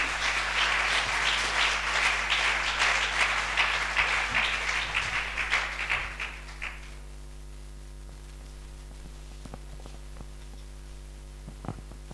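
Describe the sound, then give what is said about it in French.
A crowd at a church retreat applauds with dense, loud clapping for about six seconds, then the sound dies away into a low steady hum broken by a few stray claps. “Tu vas acclamer Dieu pour sa vie pendant qu'elle vient. Continue d'acclamer Jésus pour sa vie.”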